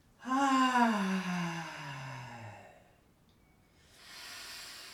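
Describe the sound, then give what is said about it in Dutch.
Two people breathing in together during a guided breathing exercise: a loud, voiced, gasp-like breath slides downward in pitch over about two seconds. After a short lull, a softer, airy breath follows. “En we halen samen in. En we ademen.”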